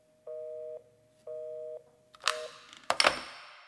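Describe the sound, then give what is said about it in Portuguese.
Phone tone after a call drops out of the coverage area: two steady, mid-pitched beeps of equal length with an even gap between them, then a third beep cut short by clicks and rattling handling noise, with no voices. “Ligação perdida. Fora da área de cobertura.”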